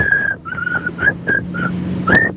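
A whistled song melody: a series of clear, fairly high notes, some held and some short, ending on a higher sustained note.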